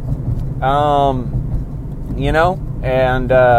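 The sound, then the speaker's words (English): A car driving on country roads in the morning gives a steady low rumble throughout, running beneath a person's voice that speaks in short bursts. “So I'm on these country drives in the morning, and I just wanted to say hello.”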